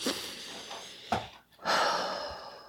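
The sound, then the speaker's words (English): Deep breathing, taken slowly and heard alone, with soft breathy noise that fades to near silence for a moment before a long, loud, rushing breath fills the second half. “I want you right now to take a deep breath with me”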